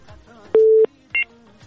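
Electronic telephone tones as a call connects to a radio call-in line: one steady beep lasting about a third of a second, then a shorter, higher double-pitched beep, with faint background sound around them.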